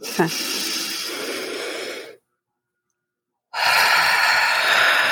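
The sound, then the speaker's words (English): A quick deep breath, taken as a pause for self-care: two long, loud rushes of breathy air, each about one and a half to two seconds, are split by a stretch of complete silence. “I think we all should just take a quick breath.”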